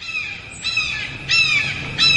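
A woman imitates a hawk's cry: three shrill, screechy calls with a harsh, buzzy edge, spaced at fairly even intervals and heard alone over a low background hum.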